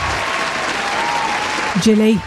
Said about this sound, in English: That selection deserved a round of applause.